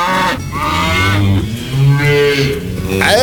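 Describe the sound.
A cow bellows at milking time, giving a few long, drawn-out moos with rich, buzzy harmonics. The calls are loud, swell and fade in turn, and rise to a higher pitch toward the end.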